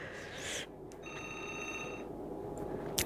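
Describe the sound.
Telephone ringing in a brief electronic trill lasting about a second, faint against a steady background hum.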